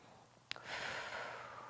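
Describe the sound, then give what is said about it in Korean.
A deep breath taken during a seated thoracic rotation stretch: a faint brief click, then a long, soft, airy breath that holds steady for just over a second. “그 상태에서 크게 호흡.”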